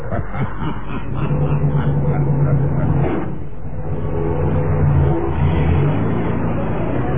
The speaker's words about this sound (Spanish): El sueco hizo funcionar el motor del taxi y se lanzó a gran velocidad por las transitadas avenidas del centro de San Francisco.